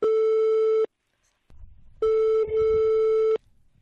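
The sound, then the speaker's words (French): Telephone ringback tone heard while placing a call to a young man in Mayotte: two loud, steady, buzzy tones separated by a pause of low rumbling line noise, with the second tone longer than the first. “On l'appelle tout de suite.”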